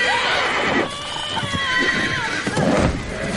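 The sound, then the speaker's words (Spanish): A horse whinnies in a film battle scene, shrill, drawn-out neighs with wavering pitch over a dense, rumbling background. “Volvemos a la batalla cuando Pippin estuvo a punto de ser aplastado por el caballo.”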